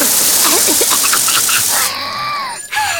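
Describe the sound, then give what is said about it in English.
Running water rinsing fish smell off hands in a cartoon: a steady, broad rushing hiss lasts about two seconds with a voice over it, then stops while talk continues. “I'm dying to wash this fish smell off my hands.”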